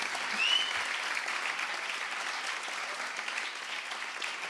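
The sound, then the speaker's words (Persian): Audience applause: a dense, steady patter of many hands clapping that fills the whole stretch at an even, fairly soft level, with no pauses. “حالا که داریم دست میزنیم بزنید”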